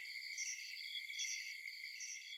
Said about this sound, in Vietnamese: Chỉ có tiếng côn trùng ở ngoài vườn kêu râm ran lên từng đợt.